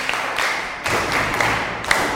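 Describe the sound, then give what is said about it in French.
Applause from pupils in a French-speaking classroom: dense clapping with sharp surges recurring about once a second. “Très bien, applaudissez.”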